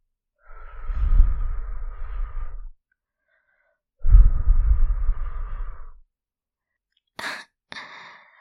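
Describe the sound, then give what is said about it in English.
Breath blown onto the back of someone's neck: two long, soft, airy exhalations, then two short, sharp puffs of air. “Feel my cool breath on the back of your neck.”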